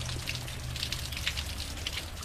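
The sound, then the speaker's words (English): Rain falling outdoors during a spell of heavy rain, heard as a continuous soft hiss dotted with many distinct drop patters and no voices. “We have gotten a lot of rain in the past couple days.”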